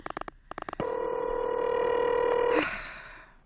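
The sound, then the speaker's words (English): Telephone number being dialed on an old phone to reach the police department: two quick bursts of short pulses, then a sustained steady tone that breaks into a hissing rush and fades. “Oh, do you have to dial? Can't you ring them directly?”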